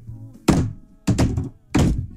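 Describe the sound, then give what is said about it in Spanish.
Three heavy knocks land on the door of a house, dull, resonant thuds spaced evenly apart with quiet gaps between them. “Y llegué a la puerta de su casa y le he tocado tres veces como un varón.”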